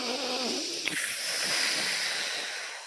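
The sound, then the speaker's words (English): A deep inhale through the nose during a guided breathing exercise, heard as one faint, airy hiss that runs unbroken for about three seconds. “Taking a deep breath in through the nose.”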